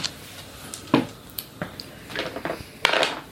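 A twenty-sided die rolled during a Cthulhu-themed D20 tabletop roleplaying session: a few sharp, bright clacks and rattles in an irregular rhythm, with no talking.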